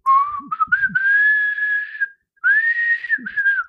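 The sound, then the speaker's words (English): A person whistles a short, haunting tune from a TV soundtrack in two loud, clear phrases split by a brief pause: quick shifting notes lead into a long held note, then a second gently wavering phrase follows. “I'm terrible at whistling. No, you're doing it.”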